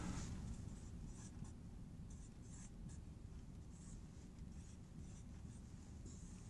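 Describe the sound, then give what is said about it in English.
Hand writing out cosine and sine makes a faint, steady scratching that runs without a break through the whole stretch. No one speaks over it. “So I'll just write cosine sine just to save us some space.”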